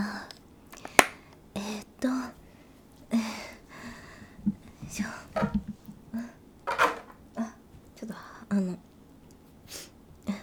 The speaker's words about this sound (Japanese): おもちゃ入ってた、なんかプラスチックトレーに当たっちゃった、音がした、ごめんね。